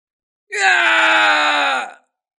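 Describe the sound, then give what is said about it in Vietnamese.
A man screams in pain after being shot through the shoulder by an arrow: a single loud, sustained, harsh cry lasting about a second and a half, rising sharply and then cutting off, with no other sounds around it. “Kim Xích Tiêu hét thảm, mũi tên thần quay lại xuyên thủng vai của gã”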